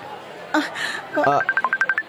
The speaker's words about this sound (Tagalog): Ang cellphone mo.